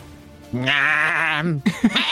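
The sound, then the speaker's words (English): Malformed woolly sheep bleating during a tabletop role-playing game session: one long wavering bleat, then a couple of short clipped bleats. “Suddenly you hear this, and to your right, 30 feet away from you, this kind of malformed woolly sheep appears and looks over”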